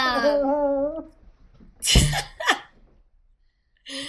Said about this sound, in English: You got a triple snort.